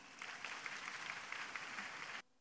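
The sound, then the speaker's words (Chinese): Audience applause welcomes a speaker at a Buddhist gathering: a dense, steady wash of clapping holds at an even level, then stops abruptly just before the end. “让我们掌声欢迎。”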